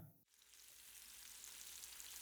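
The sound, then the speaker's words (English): British sausages sizzle in a frying pan, a steady, dense hiss that comes in after a brief moment and holds at an even loudness to the end, with no voices. “That's the sound of sausages. Great British sausages. Whoa, listen to that sizzle. Sizzling in the pan.”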